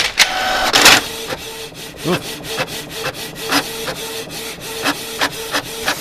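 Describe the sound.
A home ink-cartridge printer printing, with a rasping mechanical sweep followed by regular short strokes and whirring passes repeating at a steady rhythm.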